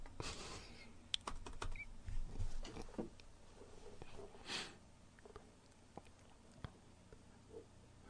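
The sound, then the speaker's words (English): Soft clicks of a computer keyboard as a search is typed, a few sparse, faint keystrokes scattered among quiet rustles and breathing sounds. “I typed in the search term on Google, funny porn titles.”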